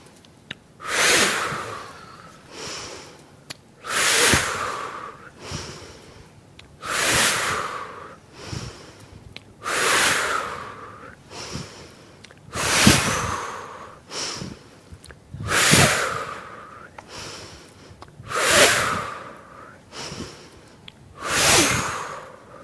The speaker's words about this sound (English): So this is the inhale, and on the release, there's a forcible exhale with pursed lips.